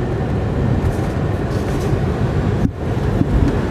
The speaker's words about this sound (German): Uff, geschafft. Der Tunnel ist vorbei.